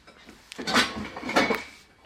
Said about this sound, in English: Let me get the pans out that you will need.